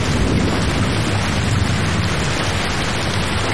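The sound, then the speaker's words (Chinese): Rain falls outside as a steady, dense, loud hiss, unbroken and even throughout, with no distinct drops or other sounds standing out. “外面在下雨，妈妈没有带伞，妈妈可能在淋雨。”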